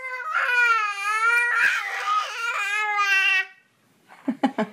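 A five-month-old baby boy cries and vocalizes in long, loud, wavering wails that probe high and low pitches, then falls quiet before a few short, breathy sounds.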